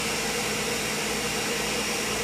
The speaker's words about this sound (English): look, our blender's back in action.